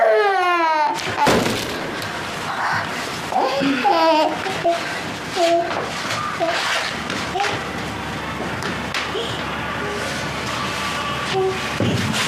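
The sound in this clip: A baby cries and babbles in wavering, high-pitched wails while an adult voice soothes the child, with a few soft thumps scattered through the crying.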